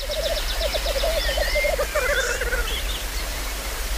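Male birds displaying together at a lek, giving overlapping bubbling, rattling calls and higher-pitched threat notes above a steady background hiss.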